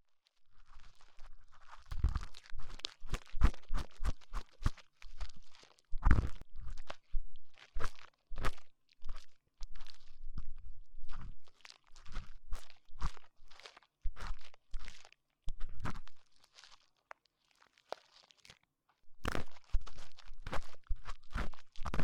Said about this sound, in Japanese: では耳かき始めさせていただきます。